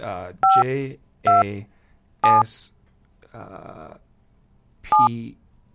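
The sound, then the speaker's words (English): Touch-tone keypad beeps as letters of a name are dialed into a museum's automated phone directory: four short, loud dual-tone beeps, spaced apart, with a recorded voice prompt speaking between them. “Spell the last name first. To cancel, press star. Dial the last name.”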